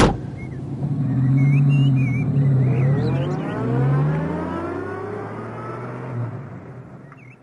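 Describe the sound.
An old car's engine, one that struggles to start, runs and pulls away. Its hum climbs in pitch as it accelerates, then settles and gradually fades, with faint high chirps above.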